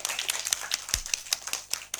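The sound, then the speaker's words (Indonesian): Kindergarten children clapping their hands together, a quick, even rhythm of sharp claps running steadily through the whole stretch. “Tepuk tangan dulu buat RRI Jayapura.”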